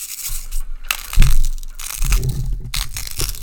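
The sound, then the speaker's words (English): Grainy crunching and crackling as a touch of salt is added to a plated dish with balsamic glaze, a few loud bursts of gritty texture over a continuous rustling scrape, with no talk. “We're gonna put some salt on it. Oh, just a, just a touch of salt.”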